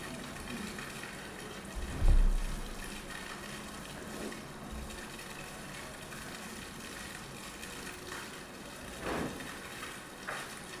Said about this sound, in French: ça fait surgir quelques phénomènes dont je vais vous faire écouter. Donc la question de l'eau, la fontaine.